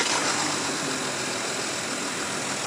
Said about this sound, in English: All right, just settling into the Porsche Cayenne. What a beautiful, can you even call this an SUV? Oh my God, this thing is something else.